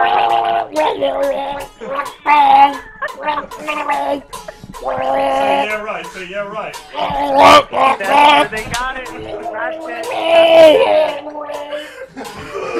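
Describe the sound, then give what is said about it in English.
A person gargles loudly with voiced, bubbling bursts whose pitch wavers like a tune. Many choppy gurgles are broken by brief pauses and run through the whole stretch. “You gotta gargle on something.”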